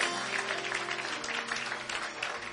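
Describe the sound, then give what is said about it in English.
Church audience clapping their hands in praise during a worship service: a faint, steady wash of many hands without a clear beat, sustained throughout. “Give the Lord a hand clap. Hallelujah.”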